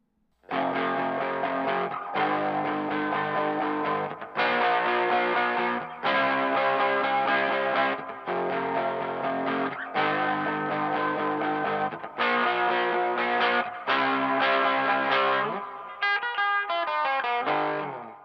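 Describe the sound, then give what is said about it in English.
Electric guitar played through a wet-dry-wet stereo rig with stereo effects: loud, sustained, effects-laden chords rung out one after another with lush, modulated tails, ending in a quick run of bright picked notes. “rig, giving them the ability to pan between the two wet speakers while the dry keeps the clarity going in the middle. When done correctly, it'll sound like this.”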